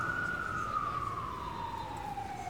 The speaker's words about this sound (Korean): 귀마개를 내팽개치고 침대에 엎어져 사이렌 소리가 그치기를 기다렸다.